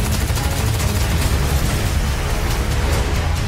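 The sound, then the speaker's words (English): Heavy gunfire from the 2012 film Dredd, a dense, loud, continuous barrage of rapid shots with no pause. “We're gonna have to go through him. Rookie, you ready? Yeah. You look ready. Fire!”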